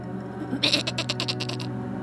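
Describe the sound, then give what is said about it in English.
Sheep bleating: one wavering, nasal bleat broken into a quick series of rapid pulses, loud and clear over a low steady hum, then trailing off. “They begged, twisted in their throats, and became the bleating cries of sheep.”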